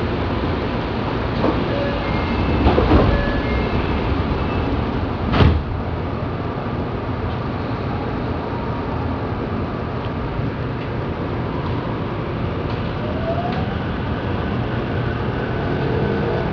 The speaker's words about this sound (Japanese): JR 東日本をご利用くださいましてありがとうございます。この電車は地下鉄東西線直通快速船戸行きです。中野から先は地下鉄東西線に入ります。